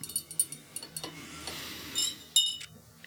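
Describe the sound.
A spoon faintly clinks while stirring diner coffee with milk in a cup. The light taps and ticks are irregular and scattered across a soft, hushed background.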